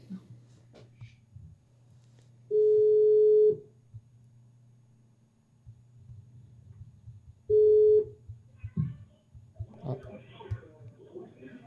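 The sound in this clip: Ringback tone on an outgoing phone call: two steady, mid-pitched tones with a quiet gap between, the second cut short, over a low hum, followed by a voice and some rustling near the end.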